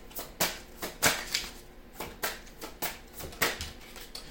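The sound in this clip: Tarot cards are shuffled in many quick, quiet papery riffles and snaps at an uneven rhythm, with no talking.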